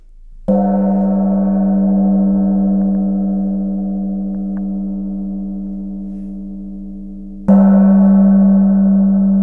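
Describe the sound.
A small gong, roughly 35 cm across, is struck twice. Each strike rings out in a loud, sustained, shimmering tone with a strong low hum that slowly fades before the second hit renews it.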